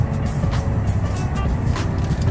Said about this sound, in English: I'm sitting in traffic right now, sitting in a light.